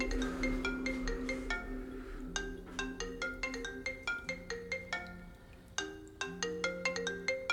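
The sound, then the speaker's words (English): A phone on a kitchen counter rings with an incoming call, a fairly quiet, bright melodic ringtone of many quick chiming notes repeating in a steady pattern. “notices the call coming through. She turns the phone over on the counter.”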